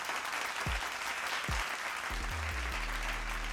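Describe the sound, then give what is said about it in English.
Audience applause, steady and faint throughout, with low tones gliding downward underneath and then holding as sustained notes toward the end. “Let me get a round of applause all lined up right now.”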